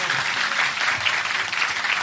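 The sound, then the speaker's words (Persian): An audience claps along to a Persian religious song: dense, steady applause-like clapping runs without a break, with a loose rhythmic pulse. “بزن کف تو دیگه، بگی بالا دست تو یا علی.”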